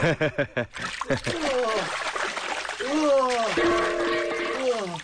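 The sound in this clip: Water splashing and trickling as someone plays with it, the watery sound running underneath a voice that speaks over it almost throughout.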